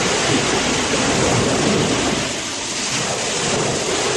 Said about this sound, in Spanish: El romper de las olas.